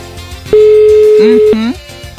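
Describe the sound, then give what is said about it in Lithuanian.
A single steady telephone ringback tone sounds on the line after dialing, lasting about one second, with voices talking over and around it. “Tai mes dabar renkam telefoną ir tikėsimės, kad į mūsų skambutį atsilieps.”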